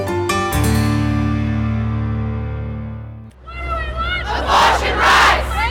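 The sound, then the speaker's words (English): Demonstrators marching and singing songs: a loud, sustained droning tone holds for about three seconds, then a crowd of voices bursts in, chanting and singing loudly with wavering pitch. “Abo ni bamwe mu bari bigaragambije bagenda baririmba indirimbo”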